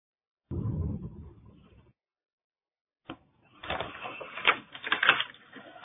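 Pens scratch on paper as people write, making irregular bursts of scratchy strokes with uneven rhythm that grow busier toward the end.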